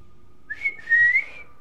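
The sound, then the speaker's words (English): A woman, called Gran, whistles in front of a walk-in wardrobe: a brief high note, then a longer, steady whistled tone, fairly soft and alone with no talk. “Sam heads upstairs, where Edna is in front of the walk-in wardrobe, whistling.”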